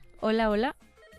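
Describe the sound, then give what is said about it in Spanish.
A single short telephone ring on an outgoing call, a loud, buzzy, slightly wavering tone lasting about half a second, followed by faint low sound. “Voy a marcar. A ver, vamos con la otra llamada.”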